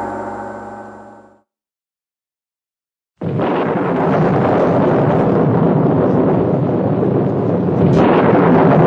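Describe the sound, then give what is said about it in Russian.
A fading musical tone gives way to a brief silence, then a dry thunderclap bursts in. A loud, steady roaring rumble follows for several seconds and swells again near the end. “Сухим грохотом разорвал небо новый удар грома, и, казалось, дождь застучал по крыше еще сильнее.”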